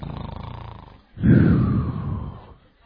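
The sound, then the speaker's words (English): A voice imitates loud snoring: a rattling, pulsing snore is followed by a louder, rougher, rumbling snore that fades out. “it's amazing how loud people can snore. It really is amazing.”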